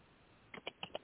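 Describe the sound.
Faint typing on a computer keyboard: four crisp key clicks in quick succession, with no other sounds.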